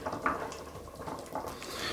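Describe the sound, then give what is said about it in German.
Pumpkin pieces go into a simmering pot of potato-pumpkin goulash, giving a faint, steady wet rustle with a few soft clinks against the pot. “Und jetzt geben wir noch den Kürbis dazu.”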